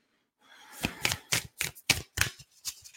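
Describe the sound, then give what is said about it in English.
Cards being handled as one is drawn from a self-love oracle deck: a rapid series of crisp, papery snaps and flicks, fairly quiet and alone. “Let's pull another self-love card. Let's see what added message wants to come through.”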